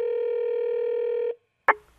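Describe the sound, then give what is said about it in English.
A telephone tone sounds as a steady, buzzing dial tone for over a second, cuts off into silence, and is followed by a single sharp click, with no voices. “So let's phone her up, shall we?”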